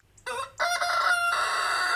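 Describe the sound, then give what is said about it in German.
A rooster crows at a mountain inn in a high alpine valley: one loud, drawn-out crow with a brief catch early on, then a long, steady, strident call that holds to the end. “Der Hahn vom Berggasthaus Heimritz im hinteren Gasterntal sorgt schon dafür, dass man früh genug aus den Federn kommt.”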